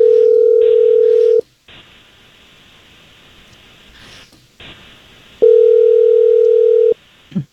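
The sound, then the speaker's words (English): Telephone call being dialed and ringing out: two long, steady ring tones separated by a pause filled with faint line hiss, then a short click at the very end. “Let's call Savannah. I mean, just out of sheer morbid curiosity. We'll call Savannah. I just need you quiet on the line while we do so.”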